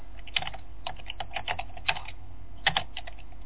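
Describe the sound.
Keystrokes on a computer keyboard as someone types a command at a DOS prompt. Clicky taps arrive in short irregular bursts with brief pauses, and a few sharper strikes stand out. No one speaks.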